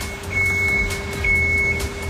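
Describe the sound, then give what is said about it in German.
An ice resurfacing machine runs on a rink. A steady low engine rumble and a constant hum carry under a thin, high beeping tone that sounds in two longer stretches. “ich bin ja schnell bei dir mit auf die Eismaschine gesprungen. Was genau macht denn diese Eismaschine jetzt hier?”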